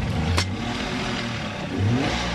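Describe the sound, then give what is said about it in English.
A tour boat's motor starting on a lagoon: a steady low engine rumble with a brief sharp click early on, then a louder rev surging up near the end. “He fires up the motor and ferries a group of travelers toward one of the islands.”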